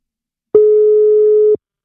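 Telephone busy signal heard when calling again: a single loud, steady electronic tone of constant pitch lasting about one second, alone without talk.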